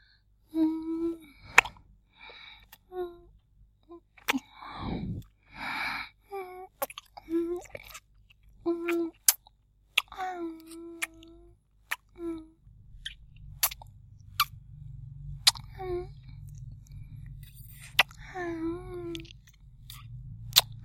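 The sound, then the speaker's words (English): Wet kissing and licking mouth sounds as lips coated in lip gloss are licked and kissed: many short, irregular smacks and clicks. A faint low hum runs underneath toward the end. “I want you to lick and kiss all my yummy lip gloss off my lips.”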